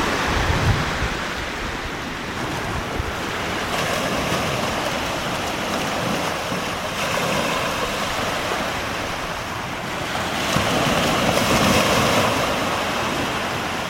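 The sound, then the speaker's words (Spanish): Sea waves wash in a continuous, broad rushing surge that swells and eases gently in loudness, with no voices. “ya lo estáis escuchando por el sonido del mar, las olas del mar”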